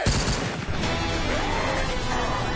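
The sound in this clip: A burst of gunfire fills the whole moment as a dense, rapid volley of sharp cracks. It holds loud and fairly even from start to finish.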